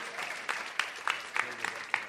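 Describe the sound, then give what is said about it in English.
Audience applause is heard as a thin, fairly faint patter of clapping with a few sharper individual claps standing out, sparse rather than a full roar. “Can you applaud? Would you applaud for yourselves?”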